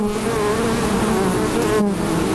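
Honey bees buzz beside a bee relaxation hut under flowering linden trees, a dense, steady drone of many wings that holds at an even level throughout, with no voices.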